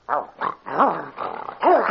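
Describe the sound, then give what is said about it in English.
A hound barks and bays in a few separate yelping calls. Each call is harmonic and rises then falls in pitch, with short gaps between them and the last call the loudest. “Get the hound away from me.”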